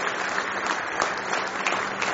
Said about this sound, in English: Wherever you would be, give them a nice hand this morning.